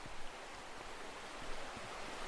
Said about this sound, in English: So we're just walking alongside the River Barle